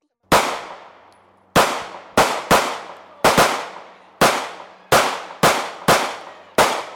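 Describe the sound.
Ten loud, sharp gunshots from a handgun fired at a man-shaped silhouette target at a shooting range, each a hard crack with a short ringing decay, spaced irregularly with quiet gaps and no talk.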